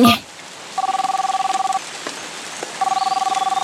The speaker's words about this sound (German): Achtung, ich mache das nochmal über meinen X-Funker hier am Raumanzuggürtel. X-Funker, bitte einmal Sternchen anrufen.